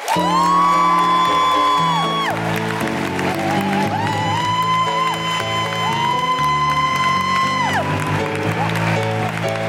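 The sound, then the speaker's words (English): An audience at a live event cheers, whoops and applauds in welcome, a loud sustained roar with long sliding whoops rising and falling over the clapping. “guilty feminist welcoming noises, along with Guardian Live welcoming noises.”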